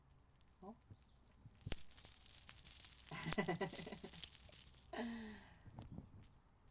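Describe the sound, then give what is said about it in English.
Metal word spell bracelets jangle as they are slipped onto a wrist, a sharp knock followed by a bright clinking rattle, then quieter shakes and clinks. “So I'm going to wear these bracelets as I write, and so they can help me cast my word spells.”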